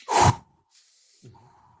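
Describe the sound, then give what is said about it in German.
Fast, deep breathing in a hyperventilation technique: one loud, forceful breath, then two much fainter, airy breaths after a pause. “Da atme ich ein bisschen schneller und tiefer, als ich es vielleicht gewohnt bin.”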